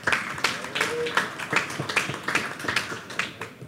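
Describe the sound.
An audience applauds with many quick, overlapping hand claps that continue at a steady level throughout.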